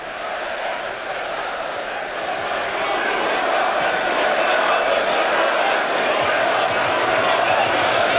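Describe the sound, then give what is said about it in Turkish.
Crowd cheering inside a party congress hall as the leader enters to address young supporters: a dense, continuous roar that swells slightly louder partway through and then holds steady. “Şu anda da biraz kulak verelim o noktada, büyük bir tezahüratla şu anda o kongrenin yapıldığı salona girmiş durumda.”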